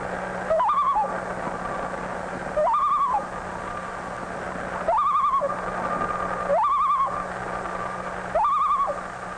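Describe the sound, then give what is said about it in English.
A loon nesting in cattails calls five times at a steady, evenly spaced rhythm. Each call is a rising, wavering cry over a constant low hum. “Listen to the call of the loon.”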